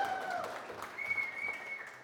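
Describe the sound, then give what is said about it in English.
Faint clapping from an audience welcoming a woman to the stage, a soft, uneven patter that holds for about two seconds. “Clapping was even better, so thank you for that.”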